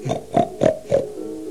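A pig gives four short, evenly spaced grunting oinks, each a brief nasal burst, followed by a low trailing hum.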